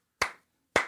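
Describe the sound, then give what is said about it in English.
Two sharp hand claps from a lone clapper, given as mock applause after a quiz answer. They are about half a second apart, each a crisp smack with a short decaying tail, with nothing else heard. “Sorry, that's the sound of one hand clapping”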